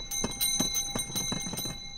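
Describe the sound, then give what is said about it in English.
Ice cream cart bells ring out on Chicago sidewalks with a rapid, steady run of many bright metallic strikes, loud and continuous with no voices. “it's the season when these ice cream cart bells ring out in Chicago sidewalks, parks, and beaches.”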